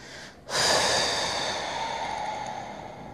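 Slow breathing during a breathing exercise: a brief quiet lead-in, then one long, steady, airy exhale that gradually fades. No talking.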